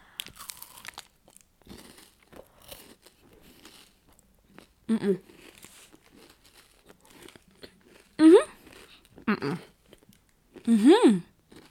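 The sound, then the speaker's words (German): Crunching and chewing of a Kellogg's cereal bar: crisp crackly bites and crinkling early on, then a few louder chewing bursts mixed with short voiced sounds, alone without speech. “Bevor ich schon alles abbrechen, weil ich hier einen Riegel esse und nicht rede. Chillt. Kurze Pause, ich fresse den noch zu Ende”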